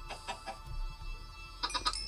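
Chickens cluck in a Minecraft game: a few short, faint clucks at the start, a pause over low background hum, then a quick cluster of sharper clucks near the end.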